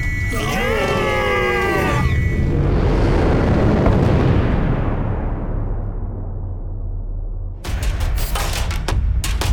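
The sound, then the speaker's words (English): Explosions as pirates fire on a spaceship in an asteroid field: a loud booming blast swells into a long rumbling roar that slowly fades. Warbling electronic tones come before it, and sharp crackling hits follow. “I'm trying to fly through the asteroid fields with stupid pirates shooting at us.”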